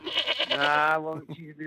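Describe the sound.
A goat kept as a mascot at a racehorse stable bleats in a loud, quavering, drawn-out cry, followed by a few shorter, fainter calls.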